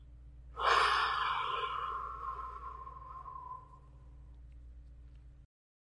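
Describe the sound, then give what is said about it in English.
A deep, full breath drawn in and let go slowly: one long, breathy sound that starts strong and gradually fades, over a faint low hum. “Start by taking a deep, full, long breath in. And let it go.”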